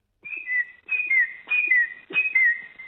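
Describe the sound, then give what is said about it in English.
A person whistles an imitation of a noisy miner bird call: four clear two-note phrases, each a high steady note followed by a slightly lower, falling note, repeated alone with short gaps. “Gosh, good impression. Yes, I think what you're hearing, and do you hear this most often in the mornings?”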